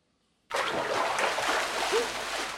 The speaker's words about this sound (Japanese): そろそろ頭はいいかな。 お湯をかけるよ。